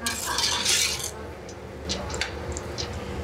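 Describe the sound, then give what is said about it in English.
Stirring onions in olive oil in a pan: a soft sizzle underlies scraping utensil strokes and a few light clinks against the pan, fairly quiet and irregular, with no speech. “And we're going to give it a stir so that it's just coated with a bit of the olive oil and the onions.”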